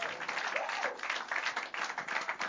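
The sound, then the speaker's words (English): Dense, continuous clapping fills a church service as the audience praises God, with shouting voices rising through the steady wash of hands. “If you're glad to be here in the presence of God, I want you to find the biggest clap and scream and shout that you can find to give to God.”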